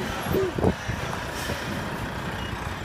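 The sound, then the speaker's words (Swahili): Trucks at a border truck stop in Busia, Uganda, on the Kenyan frontier, give off a steady low engine rumble that holds through the whole stretch, with a brief tonal squeal near the start. “Hapa ni Busia, nchini Uganda, mpakani mwa Kenya, kwenye kituo cha malori. Malori hadi 700 yanapita hapa kila siku.”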